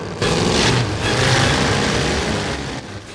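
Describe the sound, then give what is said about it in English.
A vehicle engine roars past on barren plains at dawn, a loud, broad, sustained rush that holds steady and then drops away near the end. “The bandits leap into their vehicles as Max whizzes past.”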